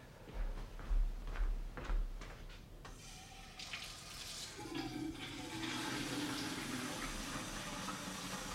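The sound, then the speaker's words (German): Water runs from a tap as it is filled to boil for tea, a soft, steady hiss that holds for several seconds after a few quieter handling sounds at the start. “Erstmal das Wasser aufsetzen.”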